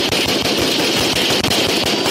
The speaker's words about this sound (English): all of the sudden, two officers and four deputies returned fire.